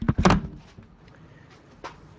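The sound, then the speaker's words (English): A handheld audio recorder is dropped: a sharp clattering thump right at the start, then faint handling knocks and a soft tap near the end. “Oh, dropping the recorder.”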